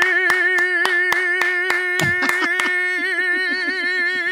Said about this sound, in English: Ladies and gentlemen, please give it up for Richard and Louise.